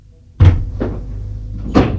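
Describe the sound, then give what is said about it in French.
A door opening: three wooden clunks, a firm knock-like thud, a lighter one soon after and a final thud a second later, over a low steady hum. “La porte est ouverte.”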